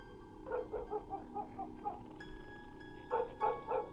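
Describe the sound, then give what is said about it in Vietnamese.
A dog barking at three in the morning near the sea gives faint, quick barks. A run of barks is followed by a pause, then a few more in the same rhythm. “tiếng chó cắn ma cứ nhấm nha nhấm nhằng, đã buồn lại còn rát ruột”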